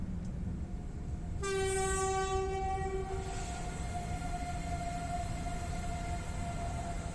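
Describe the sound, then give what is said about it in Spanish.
A passenger train at a station in Ciudad Real province, Spain, lets out a bright, harmonic horn blast of about two seconds over steady rail rumble, which continues faintly after the horn stops. “Mientras el tren permanece estacionado, hace acto de presencia el Torre del Oro Inverso, el que va camino de Barcelona.”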